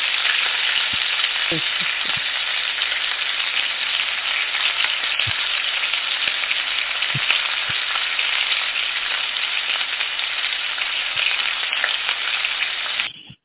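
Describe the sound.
Loud, steady frying sizzle that hisses without a break, dotted with a few sharp pops and crackles, then cuts off abruptly at the end.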